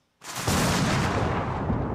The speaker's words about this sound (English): the first type of thunder is called booming thunder. It sounds like this.